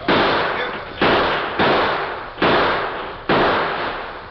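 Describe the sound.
Rifle gunshots in a western shootout: five sharp, loud bangs at irregular intervals, each with a rough, decaying tail, with no voices between them.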